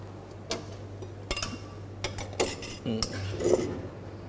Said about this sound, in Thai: แล้วก็คลุกเคล้าให้เข้ากันครับ